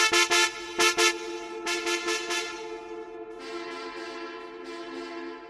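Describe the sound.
Car horn honking frantically in the distance: clusters of rapid short toots on a harmonic tone, then a sustained blast held to the end.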